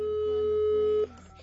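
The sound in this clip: A steady telephone line tone sounds as a call is redialled. It holds one pitch for about a second, then cuts off into quieter, fainter line noise.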